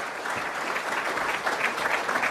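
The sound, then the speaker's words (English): Audience applause at a City Club event welcoming a speaker, soft steady clapping from a crowd sustained for a couple of seconds. “Ladies and gentlemen, let's give them a round of applause and welcome Hardik Bhatt.”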